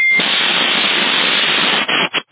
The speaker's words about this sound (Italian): Comunque la senti la portante? C'è una portante, presumo dalla Germania, che oscilla.